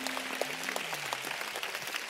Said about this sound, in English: Please, a nice hand clap to my friend.